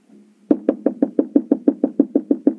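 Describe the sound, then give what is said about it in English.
Knocking on a door: thirteen quick, evenly spaced knocks in a steady rhythm, each a dull, fairly loud thud. “I'm knocking at the door.”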